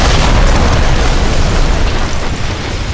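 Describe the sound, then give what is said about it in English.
Rockets explode against the arched entrance of a building, making a loud, sustained, deep roaring rumble of blast noise with no pause. “two rockets came flying toward the arch.”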